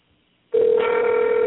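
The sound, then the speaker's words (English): A telephone rings loudly. After a brief moment of near silence, one steady, bright electronic ring starts and holds without a break until the end. “Oh, that's loud. It's a loud ring.”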